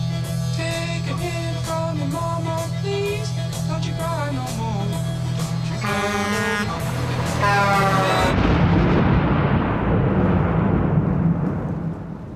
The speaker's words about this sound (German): Ein Donnerschlag hatte ihn geweckt.